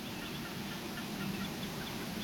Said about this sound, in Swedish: Det enda vi har är en rörsångare, en ensam rörsångare som sjunger lite grann.